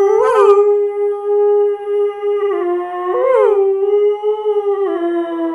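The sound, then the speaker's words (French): A person imitating a werewolf howl: one long, loud, sustained vocal howl at a fairly steady pitch, with a few brief dips and wavers along its length. “ça ressemble beaucoup plus au loup-garou de Londres ou de l'ombre”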